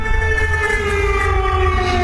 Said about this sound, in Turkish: Lublin bölgesinde sirenler çaldı.